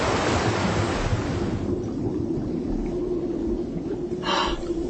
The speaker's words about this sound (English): The chamber is filling with water. Of course, to equalize our pressure before departure, it should be completely filled.